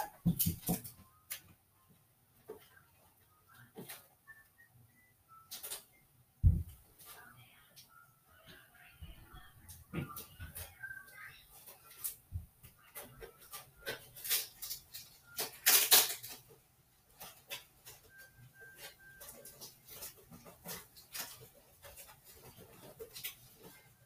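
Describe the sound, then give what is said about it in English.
Adhesive tape is pulled and pressed onto the sides of an object, giving scattered sharp crackles and short ripping bursts, with a louder stretch of tearing near the middle and quiet gaps between. “Now I gotta tape the sides. So much taping in this episode.”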